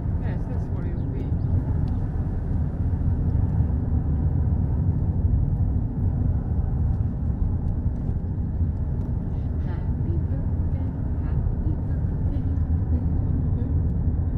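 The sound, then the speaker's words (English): Steady low rumble inside a moving family car on a road trip, with continuous road and engine drone holding an even level throughout, with no distinct events standing out. “We're now me and Mum and Dad in Mum and Dad's car going to Croom, which is a National Trust place.”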